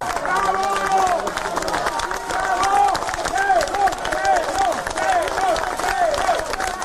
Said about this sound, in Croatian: Aplauzom i uzvicima heroj, ispred zgrade Specijalnog suda u Beogradu, građani i predstavnici dela opozicionih stranaka dočekali su 6. septembra Milana Isakova